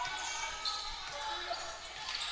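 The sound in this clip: Basketball dribbled on the court during an OIA girls high school playoff game between Mililani and Moanalua. The bounces are faint, low thuds beneath a steady wash of crowd and gym noise.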